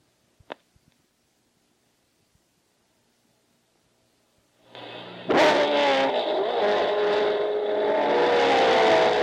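Race cars roar at an auto race. After a few seconds of near silence with a single click, a loud, sustained engine drone cuts in suddenly and holds steady with slightly wavering pitch.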